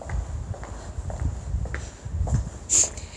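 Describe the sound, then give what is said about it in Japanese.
Footsteps of someone walking toward Tokyo Station fall in a steady, unhurried rhythm, many soft, faint steps over a low background hum. “東京駅に向かってますもうすぐ着くんでねうん歩いているところでございます”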